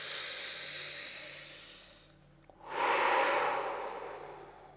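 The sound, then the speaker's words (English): A deep breath, heard alone: a long, breathy rush fades almost to silence, then after a short pause a fuller breath swells up and slowly tapers off. “Good, take a breath again.”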